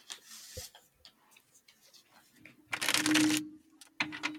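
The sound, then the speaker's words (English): A deck of cards is shuffled in a crisp, fluttering burst, followed by a shorter riffle, with quiet talk and small handling clicks around it. “Ooh, so a little deck ASMR.”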